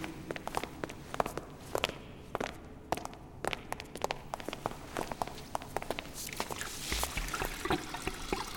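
Walking footsteps, many steady, evenly paced steps with crisp sharp impacts over a faint continuous background hiss.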